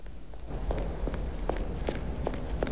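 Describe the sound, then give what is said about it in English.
Running footsteps hurry up a flight of steps as a quick, even series of firm thuds at a steady pace over a constant background hiss. “Below, Harry emerges and gallops up a flight of steps to give chase.”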